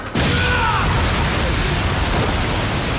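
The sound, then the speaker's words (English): A huge explosion blast from a superpowered attack in an animated fight bursts in suddenly and loudly, then carries on as a sustained, dense rumbling roar to the end. “Another huge blast like it used at the sports festival!”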